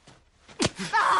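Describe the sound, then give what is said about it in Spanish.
A slap to the face that knocks a woman to the floor, in a drama film scene: one sharp smack followed by strained, gasping vocal sounds. “La tira al suelo de una bofetada.”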